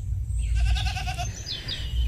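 Goats bleating at a farm in Catalonia's Garrotxa region, one wavering, harmonic bleat standing out above a steady low rumble that runs throughout.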